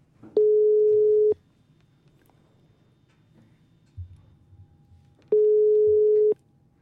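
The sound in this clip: Ringback tone of an outgoing telephone call: two steady, loud, mid-pitched beeps, each about a second long, separated by a few seconds of near silence with a faint low rumble.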